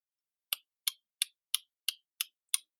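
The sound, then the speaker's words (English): A car turn-signal blinker ticks during a lane change, with seven crisp, evenly spaced clicks at a brisk, steady rhythm, quiet and alone against silence. “That's the sound of the blinkers signaling a lane change.”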